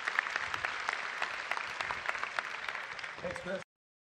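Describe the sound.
Audience applause welcoming a speaker to the stage: dense, steady clapping that holds throughout, then cuts off abruptly near the end.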